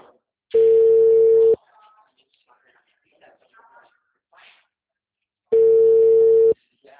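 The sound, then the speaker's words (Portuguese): Telephone line tones on a call to a busy service line: two long, steady, mid-pitched beeps about four seconds apart, with faint muffled voices and scattered soft sounds in the gap between them. “Por favor, aguarde. Todas as linhas estão ocupadas.”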